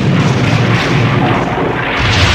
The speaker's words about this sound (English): Damage report. Shields are down to... down to 3%. And just with one shot... Say what you like about the Daleks, they've got some firepower on their side.